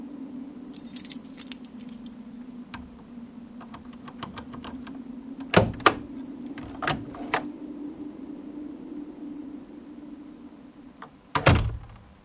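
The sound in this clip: Keys jingle and a door opens at home in the evening: a few sharp clicks and knocks, then a heavier thud near the end, all over a steady low hum.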